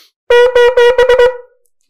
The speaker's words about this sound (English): So your shvarim trua is going to sound like this.